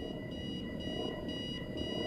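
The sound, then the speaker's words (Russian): An alarm clock rings in a bedroom: a steady, loud, high-pitched metallic ring with bright overtones that carries on without pause for the whole clip, with no voices. “Звонит будильник.”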